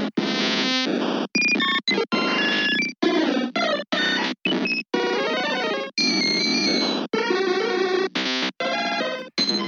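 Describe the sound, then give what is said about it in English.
Creature cries from a video game play one after another: many short electronic chirps, warbles and bleeps of varying pitch, each cut off by a brief silence before the next. “They have a little cry in this game, which is each one has like, not, I don't think they all have their own unique cry, but there's quite a few different crying noises.”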